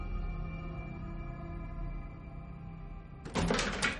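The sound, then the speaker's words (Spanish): A door closes in a 2016 supernatural horror film: a short, sharp clattering thud near the end that follows a long, sustained low drone. “Algo tira de Sofía hacia la habitación, entra y cierra.”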